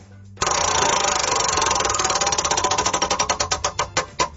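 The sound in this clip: A prize wheel spinning on a sports talk segment, its rapid mechanical ticking starting loud and dense, then gradually spacing out as the wheel slows toward a stop.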